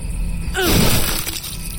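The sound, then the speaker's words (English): A stone smashes through a skull in one sudden, crunching crack that bursts out midway, rings briefly with a harsh breaking texture, then drops back to a low, steady background. “And again, this time a better aim, the stone smashing through skull, flinging bits of brain, bone and flesh.”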